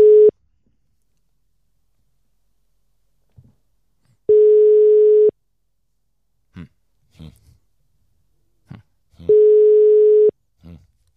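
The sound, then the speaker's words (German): A telephone ringing tone repeats while a call is placed: steady mid-pitched beeps about a second long, recurring roughly every five seconds, with quiet voices murmuring in the gaps. “Also ich rufe jetzt den Ersten an.”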